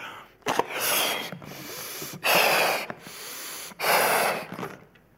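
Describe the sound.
Breath is blown into a balloon: a few long, forceful, hissing exhalations separated by brief pauses for air. The middle and final blows are the strongest, and no one speaks.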